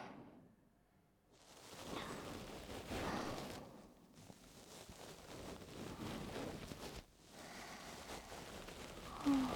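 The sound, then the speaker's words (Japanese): Ear pick cleaning an ear in ASMR style: soft, continuous close scratching and rubbing with brief quieter pauses, steady and gentle throughout, with no voice over it. “正解、耳かきでーす。じゃあ始めていくから動かないでね。”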